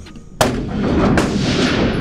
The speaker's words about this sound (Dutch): Dus dat is iemand die leert schieten.